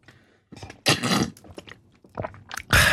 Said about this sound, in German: Nein, nochmal einen Schluck. Sorry, aber bei dem Wetter sollte man laut Ärzte und der FIFA regelmässig Trinkpausen einschalten.